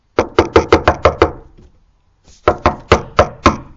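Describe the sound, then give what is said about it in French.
Knocking on a door: a brisk run of seven sharp raps, a pause of about a second, then another rapid series of similar firm knocks. “Et qu'est-ce qu'on fait quand on est exclu? On frappe.”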